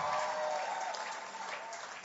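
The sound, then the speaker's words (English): Church audience clapping for a pastor: a steady, dense wash of applause that holds at an even level throughout. “If you want to clap, clap well.”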